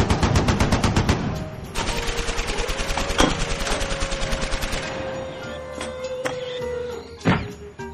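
Machine guns fire on an enemy position in long, rapid bursts of sharp cracks, loud and continuous, with a few heavier single bangs toward the end.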